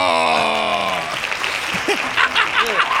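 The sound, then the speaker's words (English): Hand clapping bursts in after a sustained voice and continues briefly as a dense patter, with voices mixed in. “Hand claps. Thank you.”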